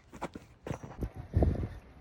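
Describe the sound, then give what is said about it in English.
Footsteps of a person walking around a residential neighborhood, heard as a few soft, uneven thuds at a low level with no talking. “I'm taking a little walk around the neighborhood where my brother lives.”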